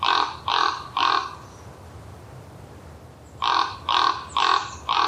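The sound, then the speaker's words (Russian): A raven calls with deep, rough, croaking caws: a burst of three evenly spaced, loud calls, a pause of a couple of seconds, then four more in a steady rhythm, with no voices. “Я очень люблю крик ворона. Мне он кажется, такой, да. Да, мне он кажется таким... как бы глубоким, мистическим. И я всегда радуюсь, когда слышу.”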